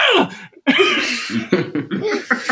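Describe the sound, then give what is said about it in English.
A voice imitating a surprised sneeze: a sudden loud breathy burst, a short pause, then a few shorter snorting, laugh-like vocal bursts. “Who would sneeze like it was a surprise. Like, it was always like they were just sitting there and they're like,”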